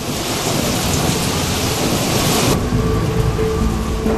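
Heavy rain with thunder pours over park shrubbery in a loud, steady, dense hiss with low rumbling beneath; partway through, the brighter upper hiss drops away abruptly and the downpour continues more muffled.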